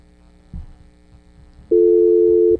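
A telephone tone sounds after a caller's line drops: a single steady, mid-pitched electronic hum lasting under a second, preceded by a soft thump over faint background noise.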